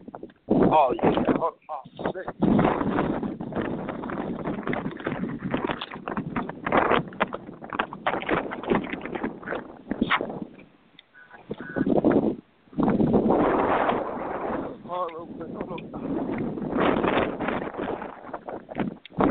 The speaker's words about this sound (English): It's super windy.